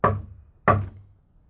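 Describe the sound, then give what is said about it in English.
Two heavy bangs strike a communicating door between rooms, each a sharp, loud thud that decays quickly, the second arriving well under a second after the first, with silence around them. “I'll bang on the communicating door.”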